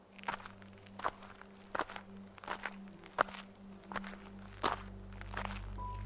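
Quiet footsteps sound as two people walk down a road, one supporting the other, who has an injured foot. The steps are soft, regular and crunchy, about one step every half second or so, with no talking.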